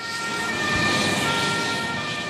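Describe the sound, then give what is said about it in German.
An ambulance siren sounds as a Red Cross ambulance pulls away during a rescue exercise on the square outside a football stadium. Steady high tones ride over loud, broad engine and road rumble. “Auf dem Platz vor der Allianz Arena fährt der nächste Rettungswagen ab”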